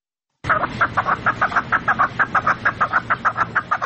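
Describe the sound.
Fighting partridges kept in northern Afghanistan calling, a loud, rapid and steady run of many repeated clucking notes with an even rhythm and no voices.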